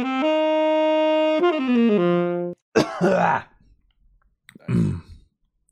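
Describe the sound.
Throat clearing on a groggy morning: two rough, harsh bursts, the first longer and louder, following a steady buzzing tonal sound.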